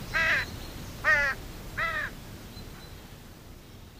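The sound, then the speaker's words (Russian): Crows caw as a flock circles overhead: three harsh, evenly spaced caws, moderately loud, over a steady hiss of background noise. “Высоко над их головами с карканьем накручивала круги воронья стая.”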